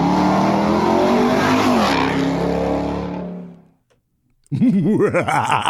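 A 2024 Ford Ranger engine with a MagnaFlow exhaust roars in a loud, deep, steady drone that fades to silence. Then another engine bursts in with quick wavering revs.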